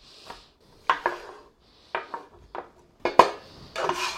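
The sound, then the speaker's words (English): A pepper is chopped into little bits for a crockpot chili, with a few sharp, irregular taps in small clusters separated by short pauses. “Like I said, any pepper will do. Chop it up into little bits.”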